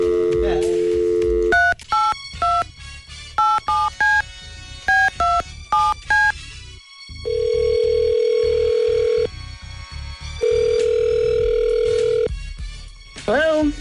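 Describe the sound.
Telephone call being placed: a steady dial tone, then rapid bursts of keypad tones as a number is dialed, followed by two long, even ring tones separated by a pause.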